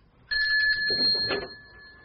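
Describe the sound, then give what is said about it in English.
A bell rings as the signal for a surprise birthday, a bright, high, sustained tone that starts abruptly and rings on to the end, briefly joined by a burst of other mid-range sound. “Now stand there, wait until the bell rings, and then you may turn around.”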